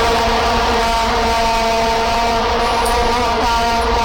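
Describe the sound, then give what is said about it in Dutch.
Vuvuzelas blaring en masse at the 2010 World Cup in South Africa form a dense, unbroken buzzing drone, loud and steady from start to finish with no gaps or changes. “Nee, zo klonken die vuvuzela's. Oh ja. Kun je dat nog herinneren? WK 2010 in Zuid-Afrika.”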